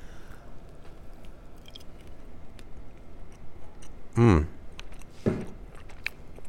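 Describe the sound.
Biting and chewing on fried goat cheese topped with fig and honey: two soft, crunchy bites stand out over a steady murmur of background noise.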